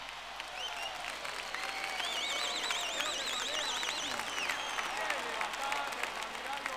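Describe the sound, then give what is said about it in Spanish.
Applause from an audience at a live Cuban son concert after a trumpet solo: dense, steady clapping that holds for the whole stretch, with high warbling tones riding over it in the middle. “Un aplauso para Julio Padrón.”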